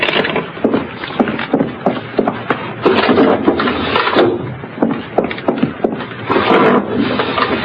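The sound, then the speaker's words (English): Windows are shut and locked inside a house: a busy run of wooden bangs, knocks and thuds in quick, irregular succession, loud throughout with brief dips between bursts. “There. I've shut and locked all the windows.”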